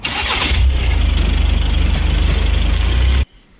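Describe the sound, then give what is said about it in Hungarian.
A car engine cranks and catches, then settles into a steady, low, throbbing idle that holds loudly for a few seconds before cutting off abruptly. “Ez beindítani egy kocsit?”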